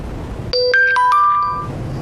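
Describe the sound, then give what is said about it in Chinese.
A WeChat message notification on a phone: a short sequence of bright, clear chiming tones that ring out and fade, with no talk over them. “你等一下，班主任又微信我。”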